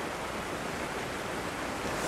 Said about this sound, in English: And that wind picking back up again.